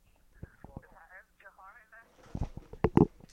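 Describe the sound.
An incoming telephone call rings as a short warbling ringtone phrase, followed by bursts of talking voices.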